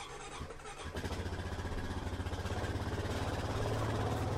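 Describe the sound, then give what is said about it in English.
A four-wheeler ATV engine runs during a short ride, rising after a brief quieter start into a steady, pulsing low rumble that stays loud to the end. “climb onto a four-wheeler for a short ride. I've never been on a four-wheeler before. It's a little tight, but we'll do it.”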